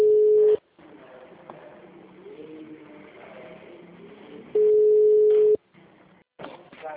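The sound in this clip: Telephone ringback tone heard while dialing a call, two steady one-second beeps at the same pitch separated by about four seconds of faint line hiss and murmur, with no voice answering yet.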